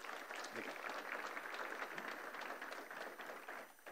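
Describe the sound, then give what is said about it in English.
Church audience applauding at an evening mission conference, a dense, steady wash of many hands clapping that holds at an even level for the whole four seconds. “And if you've been blessed this evening, let's give him a round of applause.”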